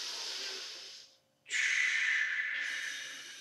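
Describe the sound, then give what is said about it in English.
Deep, airy breathing during a bodyweight exercise: a long breath fades out, and after a short silence a second, longer and louder breath follows, breathy and hissing throughout. “Take a nice big inhale.”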